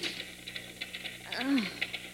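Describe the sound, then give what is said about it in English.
Typewriter keys clatter at a desk in a large manufacturing plant, a faint, quick run of evenly spaced clicks. “typing at her desk in a large manufacturing plant”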